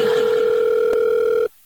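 A telephone dial tone sounds as a call is placed: a steady, unbroken hum that holds at one pitch for about a second and a half, then cuts off abruptly into silence.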